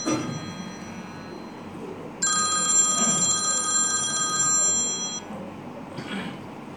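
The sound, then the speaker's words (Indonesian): An electronic telephone ring from an incoming international call, a bright tonal trill holding for about two seconds before stopping, followed by a brief fainter burst over a low steady background hiss. “Panggilan luar negara.”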